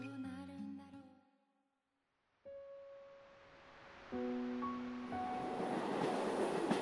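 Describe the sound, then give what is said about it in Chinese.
A train slowly pulls out, its low rumbling noise building steadily while sustained tonal notes enter in stages over it. “列车开始缓缓地驶出，窗外的世界由静变动。”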